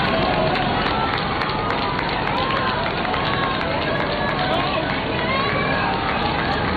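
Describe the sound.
A street crowd in Spain during the Pope's visit forms a dense, unbroken hubbub of many voices and movement. It holds at a steady, fairly loud level throughout, with no single sound standing out.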